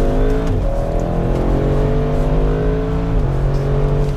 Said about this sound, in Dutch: de RS6 is een auto waarmee iedereen hard kan rijden. Ik denk dat dat een beetje de charme ervan is. Enorm veel potentie, maar potentie die ook echt goed toegankelijk is gemaakt. Even een klein stukje doorhalen hier.